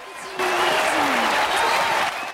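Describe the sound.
Audience applause breaks out as performers bow together on a stage, a dense, steady wash of clapping that swells and holds, with a voice rising above it.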